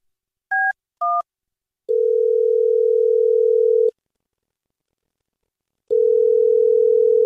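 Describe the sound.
A telephone dial tone after a wrong extension was dialed: two short dialing beeps, then a loud, steady single-pitched tone that holds for about two seconds, stops, and returns after a silent pause.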